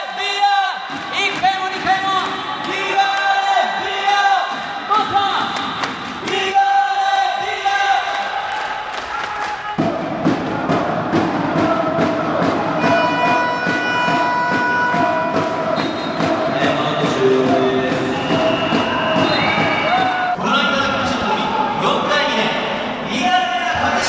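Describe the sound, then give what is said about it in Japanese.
Fans chant and clap in rhythm for Ligare Via Katsushika in the closing minutes of a match, a loud crowd of voices rising and falling in repeated calls with steady handclaps woven through. “最後まで皆さんの声で選手の後押しをしていきましょう。僕のコールに続いて手拍子お願いします。”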